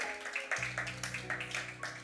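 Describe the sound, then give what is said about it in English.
Congregation clapping as a clap offering during a church service, a run of rhythmic, evenly spaced claps over a sustained musical tone. “If you believe it, give him a clap offering.”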